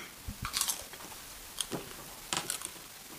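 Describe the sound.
People taste and chew gnocchi with faint, soft chewing and a few brief biting or crunching bursts separated by quiet pauses. No talk is heard.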